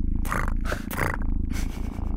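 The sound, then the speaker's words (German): A cat purrs in a deep, rough, rhythmic rumble, loud and close, with pulsing low vibrations and airy breathy bursts riding over the steady drone. “Wenn du mit den Höhen zum Beispiel arbeitest, ja, dann kannst du tatsächlich so ein bisschen die Charakteristik des Schnurrens verändern.”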